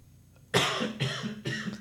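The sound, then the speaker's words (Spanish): Coughing from someone suffering in the cold: three harsh, loud coughs, each a sharp burst with a short fading tail, following a near-silent start. “Tener tos por el frío eslavo.”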